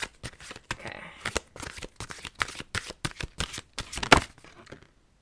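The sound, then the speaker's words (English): A new deck of oracle cards being shuffled, with many crisp, papery riffling bursts in quick succession and brief pauses between them, then a final louder snap before quiet. “So I just got this new deck in Denver when I was visiting, and I literally love it. So let me just pull a little card for you guys.”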